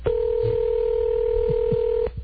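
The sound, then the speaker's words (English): A telephone ringback tone on an outgoing call that is not yet answered: one steady, even ring burst lasting about two seconds before it cuts off. “Here's the fourth ring. Most machines pick up now, right? Come on, pick up.”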